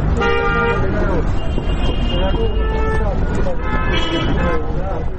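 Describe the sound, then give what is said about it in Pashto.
Busy street traffic with passing cars, rickshaws and people, with several loud horn toots and honks over a dense, steady rumble of engines and road noise, faint voices mixed in. “دی پر سړک تیرېدونکو موټرو، رکشو او خلکو ته ګوري.”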